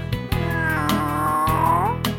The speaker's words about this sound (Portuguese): E essa é a história de um gatinho manhoso.